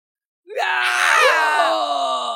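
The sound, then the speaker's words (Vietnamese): A single anguished scream of pain amid a battle as the ground cracks, rising in pitch at its onset and then holding a strained, wavering cry for about two seconds. “Lúc này có người kêu thảm, liên tiếp những tiếng kêu vang lên”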